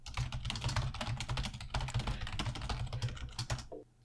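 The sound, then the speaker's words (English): Rapid typing on a computer keyboard as someone enters a message into a chat: many quick, fairly faint key clicks in an uneven rhythm over a low hum, stopping just before the end. “I'm going to type it real quick in chat.”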